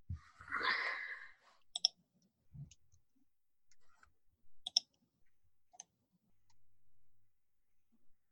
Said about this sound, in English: Yep, I'm rolling dice, folks.